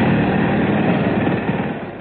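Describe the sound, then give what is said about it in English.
Pneumatic drill sound effect digging through the floor of a crate on a ship: a steady, dense mechanical roar with no breaks, heard alone without voices. “Inflate this pneumatic drill. Right. Quickly, Seagoon dug a hole in the floor of the crate and tunneled down through the bottom of the ship.”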